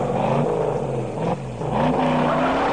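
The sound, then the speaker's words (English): A Ford Mustang drives through the hills of San Francisco, its engine a steady, loud, low drone with a brief dip in the middle before the revs pick back up. “But I think a little spin around the hills of San Francisco in the Mustang is just what the doctor ordered.”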